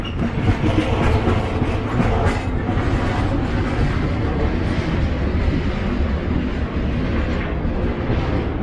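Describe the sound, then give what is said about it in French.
A long train of many wagons rolls steadily over the rails, ending with a red lantern. It makes a loud, continuous rumble with a rhythmic clickety-clack of wheels, and no voices are heard. “j'entends encore le roulement du train sur les rails vides”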